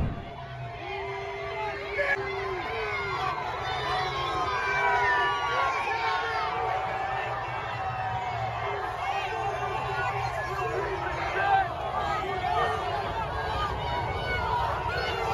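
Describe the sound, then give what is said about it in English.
A crowd chants and jeers against Joe Biden as his motorcade drives by, a steady, dense roar of many voices that continues throughout. “people who were chanting against Joe Biden in New Jersey. This is what it sounded like when Joe Biden was driving through the state of New Jersey and California, both blue states, within a week of each other.”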